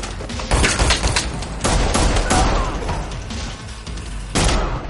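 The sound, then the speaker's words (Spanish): Gunfire from a shotgun and a pistol in an action crime film scene: many loud, sharp blasts in rapid succession, with heavy booming shots and dense bursts overlapping throughout. “Dispara a uno más y lo remata en el suelo. Tira la escopeta y saca una pistola con la que abate a otro.”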